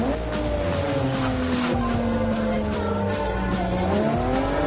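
A car engine and screeching tires in the racing video game Forza Horizon 2: a loud, continuous engine drone that sags in pitch and then climbs near the end, with tire squeal.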